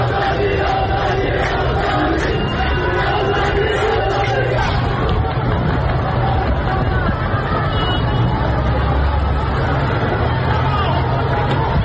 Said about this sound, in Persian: صدای معترضان رو بشنویم در این ویدیویی که به دست ما رسیده و البته در شبکه‌های اجتماعی هم پخش شده.